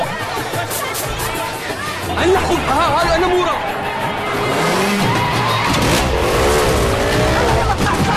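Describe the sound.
A police car moves down a city street as squealing tires and car engine noise mix with the chatter of onlookers, and people are heard talking throughout.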